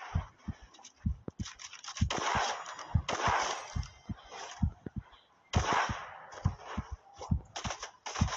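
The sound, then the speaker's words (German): Rapid gunfire in a video game shooter, many sharp, cracking shots in irregular bursts with brief gaps, loud and alone without talk. “Oh nein, er hat mich getroffen, das Headshot.”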